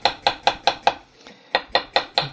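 Knife chops as pitted fruit is cut by hand into half-moon slices: nine crisp, evenly spaced strikes, a run of five, a brief pause, then four more, with no talk.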